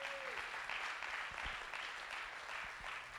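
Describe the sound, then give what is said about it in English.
A church audience applauds missionaries in a soft, continuous wash of clapping that stays even from start to finish. “So I want you guys to see them. Let's give them a round of applause.”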